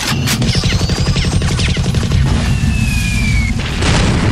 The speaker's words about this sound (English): I like these newfangled guns.